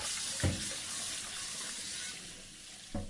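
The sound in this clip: Surgical instruments are washed under running water, a steady hissing rush from the tap that stays even throughout, broken by two brief low thuds, one near the start and one near the end.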